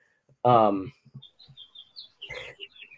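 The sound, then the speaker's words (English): Birds chirp in the background: faint, short, high chirps come one after another after a brief voiced sound at the start. “I just heard the birds in the background.”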